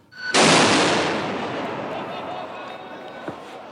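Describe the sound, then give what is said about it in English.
A firework bursts during a clash between protesting farmers and riot police: a sudden loud blast, then a long broad roar that slowly fades, with one smaller pop near the end. “So what you're hearing here is a clash between hundreds of protesters and riot police. There were fireworks being thrown.”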